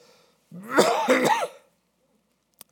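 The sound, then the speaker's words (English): A single raspy, voiced cough lasts about a second, then silence and a faint click. “I'm feeling great, but I hang on to coughs, unfortunately. And so I might cough my way through this.”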